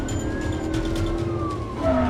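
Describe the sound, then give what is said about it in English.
A police patrol car siren wails with a steady, sustained tone over low engine rumble during a chase, then drops sharply in pitch near the end. “The patrol car closes in on the Charger.”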